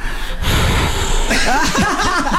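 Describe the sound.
A voice imitates breathing during intimate, erotic lovemaking. Loud breathy rushes of air give way to quick voiced gasps that swing up and down in pitch.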